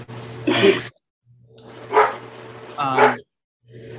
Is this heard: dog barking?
yes